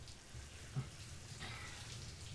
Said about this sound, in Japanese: シャワーの温度はこれくらいかな。